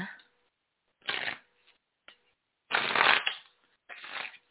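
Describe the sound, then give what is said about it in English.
Shuffling of a deck of cards before pulling one: several crisp bursts of riffling and rustling paper, separated by short pauses, the later bursts longer and louder, with no voices. “I want to pull a card for the conscious, for the collective. Let's pull a card real quick. And I'm in the Chem deck, just so you know.”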